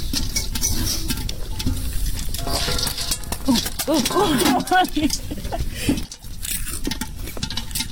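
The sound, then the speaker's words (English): Popcorn popping in a lidded pot over a real fire, a dense, irregular patter of many quick pops and rattles while people talk. “Wow, popcorn on a real fire. I think you should just take the lid off. No, they all gonna pop up.”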